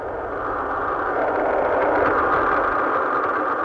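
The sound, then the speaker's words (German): Rocket engines ignite at launch for a rocket carrying a spacecraft, producing a loud, steady, broad roaring rumble that holds even throughout with a slight swell midway, with no voices. “Der Countdown für die Rakete erfolgt. Als er bei Null anlangt, werden die Triebwerke gezündet.”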